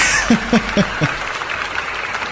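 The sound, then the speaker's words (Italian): Spontaneous audience applause at a film presentation, a continuous clapping wash with a few short bursts of chuckling laughter over it in the first second. “E qua l'applauso scatta spontaneo.”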